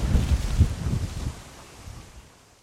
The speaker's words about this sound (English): let me get back to you when I get some shelter from the wind further up.